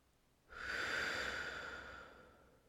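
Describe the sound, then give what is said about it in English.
After a held breath, a single long exhale is released through the mouth during a breathing exercise. It is a soft, steady, airy rush that starts abruptly and gradually fades, alone and quiet. “When your lungs are full, hold your breath for just a second or two. And then release the air through your mouth and bring your arms down.”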